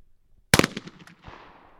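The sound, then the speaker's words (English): A shotgun fires during trap shooting practice by a youth trap team at a gun club. A single sharp, loud blast is followed by a long rumbling decay. “The Poplar Bluff Trap Team is practicing at its local gun club on a recent Saturday in November. And while the sun is still up and the team is still shooting”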